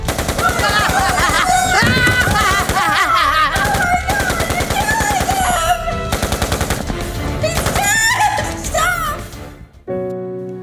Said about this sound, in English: Why did you shoot Dad 1,000 times?